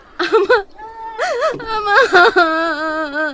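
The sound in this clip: A woman cries, her wavering whimpers rising and falling in pitch, then breaking into choked sobs before stretching into one long, steady wail.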